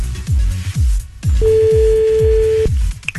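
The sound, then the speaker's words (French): A telephone ringing tone sounds once as a call is placed, a steady single tone lasting just over a second over a rhythmic low thumping beat. “Allez, on appelle, c'est parti.”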